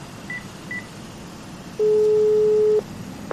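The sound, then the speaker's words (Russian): A telephone ringing tone while calling someone: two faint short beeps, then one steady, sustained electronic tone lasting about a second, over a low hiss. No voices. “Как бы то ни было, надо попытаться ему позвонить, чтобы хоть что-то прояснить.”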